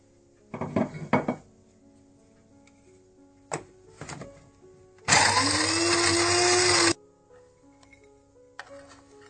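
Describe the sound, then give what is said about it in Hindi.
A kitchen grinder whirs loudly for about two seconds as it grinds almonds and walnuts, its motor pitch climbing briefly as it spins up. Clattering knocks of the jar and lid come before it, and another knock follows. “इसके बाद मैं बादाम और अखरोट को भी थोड़ा थोड़ा ग्राइंड कर लूंगी।”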